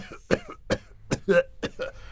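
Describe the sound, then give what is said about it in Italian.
A persistent, harsh cough, said to come from years of dampness, breaks out as a series of several rough bursts with throaty rasps between them. “Questa tosse inesorabile, la devo all'umidità che ho patito in tutti questi anni.”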